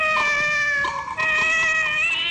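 A wild cat shrieks in agony with one long, loud, high-pitched wailing yowl. The cry is harsh and strongly tonal, dips briefly near the middle, then carries on at full strength to the end.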